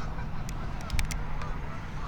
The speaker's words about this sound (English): And there's some geese in the hidden finger ponds that are going nuts. I can't see them, but I can hear them back there.